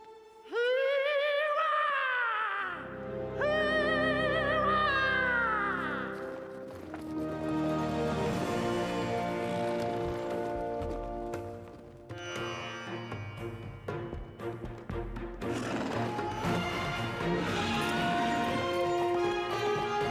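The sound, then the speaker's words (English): In Star Wars: The Clone Wars, Jar Jar Binks calls the steeds with two high, warbling vocal calls that rise and fall, followed by a long stretch of clip-clopping hoofbeats. “All right, now our heroes ride off into the sunset, and that's that. That was Jar Jar calling their noble steeds back to them, and now they'll ride off together.”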